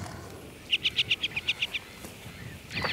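Quick series of about nine high, bright chirps from a female ground-nesting bird as she flies off her nest of eggs inside a wire protective cage, followed by a faint single call over low background noise.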